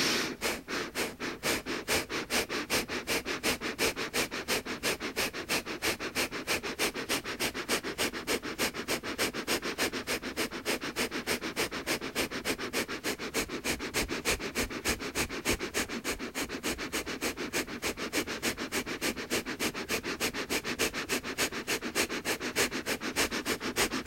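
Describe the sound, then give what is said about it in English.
Rapid breathing in and out through the nose makes many quick, sharp puffs at a steady fast pace, even in loudness and continuing throughout with no talk. “gently starting your breathing in and out through your nose. And then accelerating to a pace that's comfortable for you.”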